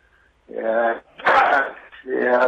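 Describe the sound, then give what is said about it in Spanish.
Dogs bark in quick succession: three short, loud, tonal barks or yelps, with the middle one harsher and noisier than the other two. “estoy con los perros acá. Sí, sí, se los escucha muy bien.”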